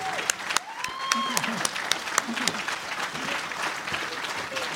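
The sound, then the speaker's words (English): Applause welcomes the evening speaker at a Wyoming Republican gathering, a loud, steady patter of many hands with a voice talking over it and a few sharper claps standing out. “Give her a warm Wyoming Republican hand.”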